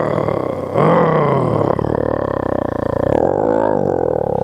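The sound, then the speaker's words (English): A man's voice imitates an angry lion's roar: one long, gruff, growling roar that swells suddenly near the start and holds for several seconds. “But when he's angry, you know, sometimes we look like a lion when we get angry. You know, we go,”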